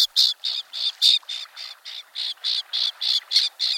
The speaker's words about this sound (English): Common terns migrate along both coasts and through the interior to their nesting grounds in Canada from their winter home in the tropics.